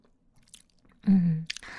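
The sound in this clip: Chewing and biting from people eating a home-cooked family meal, faint at first, then a short crisp crunch of a bite near the end.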